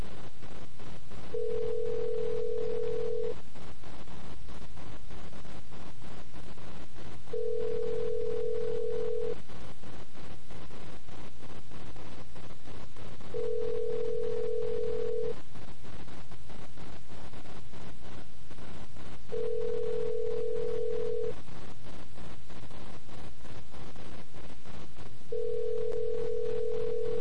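Ringing tone heard on the line while calling a street payphone. Five steady, mid-pitched two-second tones repeat at regular intervals, each followed by a longer pause, over a constant background hiss.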